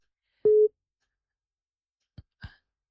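A busy tone after a phone call drops because of a bad network: a single steady, low electronic beep, followed by a silence and then two short clicks.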